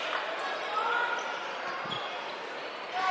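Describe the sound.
A basketball is dribbled on the court during a high school game, giving a few dull, low bounces under a steady background din.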